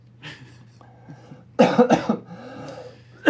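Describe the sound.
Coughing from an almond skin caught in the throat: a few soft throat noises, then a tight cluster of loud, harsh coughs, with one more rough cough starting at the very end.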